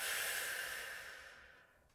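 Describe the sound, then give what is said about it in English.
A single deep breath, a soft, airy rush of air that is quiet, heard alone, and fades gradually away over about two seconds. “take a deep breath in. Release.”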